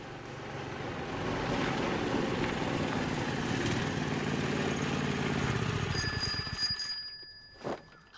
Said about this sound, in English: arrives on a tiny, wobbly scooter.